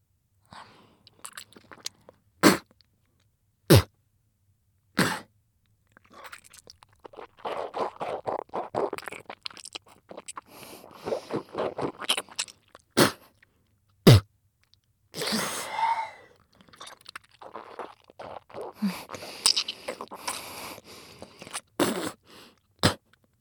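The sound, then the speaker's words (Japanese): Spitting, heard as a few sharp, wet bursts separated by pauses, with softer smacking and slurping mouth noises between them. “ほら、たっぷり唾吐いてあげるから、しっかり嗅ぐのよ。”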